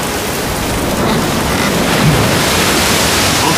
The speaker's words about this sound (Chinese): 不好，台风逼近了，大家快走，否则就来不及了。